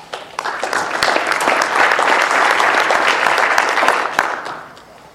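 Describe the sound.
Audience applause welcoming a mining-safety research speaker to a talk: a crowd of clapping hands that swells quickly, holds steady and full, then tapers off near the end.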